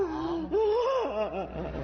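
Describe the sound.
A comedian fakes an exaggerated, wailing cry, starting with a long drawn-out moan that swoops up and down in pitch, then breaking into shorter sobbing bursts.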